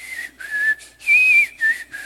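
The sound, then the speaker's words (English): A person whistles a hymn tune in clear, melodic phrases, a few short notes and held tones with a brief rise in pitch midway, heard alone without talk. “I'll find myself whistling a hymn.”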